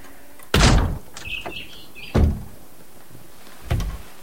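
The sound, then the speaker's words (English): A splintered back door, ajar after being kicked in, pushed open with a foot: three loud, sharp bangs spaced a second or more apart, with faint high squeaks between the first two. “the back door, which is ajar and splintered as if it's been kicked in. He pushes it open with his foot.”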